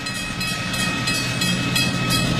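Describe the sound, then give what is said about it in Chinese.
A train passes with a steady, broad rumble and faint rhythmic clicking of wheels on the rails, continuous and fairly loud throughout. “你听铃声，马路的声音，火车的声音，”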